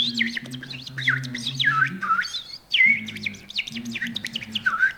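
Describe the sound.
A person imitates a redwing's song with bright, rapid whistled chirps and trills that rise and fall in quick phrases, set against a steady low hum underneath.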